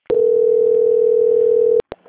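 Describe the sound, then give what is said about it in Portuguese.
A telephone call-transfer tone sounds as one steady, mid-pitched beep lasting nearly two seconds, then cuts off with a sharp click and a couple of brief bursts. “Só um minutinho que eu vou transferir o contato para o controle de qualidade, tá?”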